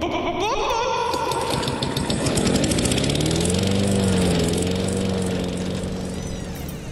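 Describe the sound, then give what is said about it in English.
A generator runs in the middle of a kitchen, its engine giving a loud, steady mechanical drone with a rough, buzzing hum that holds throughout without pause. “Why the fuck is there a generator running in the middle of the kitchen?”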